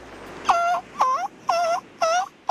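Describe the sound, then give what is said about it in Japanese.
A human voice imitates a seagull's call: four evenly spaced, strained squawks, each about a quarter second long, with a fifth cut off at the end. “カモメはどうやって鳴くの。”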